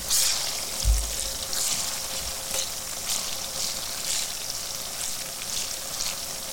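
Aubergines shallow-frying in oil in a pan give a steady, dense sizzle with fine crackling. One soft low thump comes near the start. The sound is continuous and moderately loud, with no talking.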